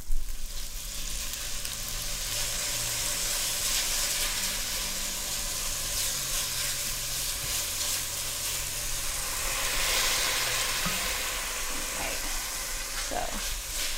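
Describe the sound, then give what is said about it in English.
Ground lamb fries in a little olive oil in a hot pan, giving a dense, steady sizzle and hiss that runs without a break and swells slightly now and then, with no talking over it. “you've got some natural ground lamb. Yes. I'm gonna put, a little, just a tiny bit of olive oil in my pan.”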